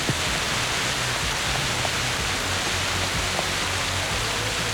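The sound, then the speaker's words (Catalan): Rain pours down during a storm in Tordera, a dense, even hiss of falling water that stays steady and loud throughout with no voices. “Sí, aquest és el so de la pluja ara mateix a Tordera, ho podeu sentir.”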